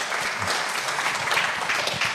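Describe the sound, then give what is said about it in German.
Applause from an audience, a fairly faint and continuous patter of many hands with no voices over it. “Diesen Applaus wollen wir nicht unterschlagen.”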